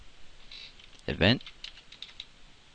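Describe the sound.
Typing on a computer keyboard: a few soft, faint key clicks scattered across the moment, with a brief voice cutting in at the middle.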